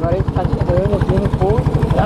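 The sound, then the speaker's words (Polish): A boat engine runs with a rapid, steady low thrum as the boat approaches a riverbank, heard under a person talking. “Dopływamy. O. I już silnik wyłączony.”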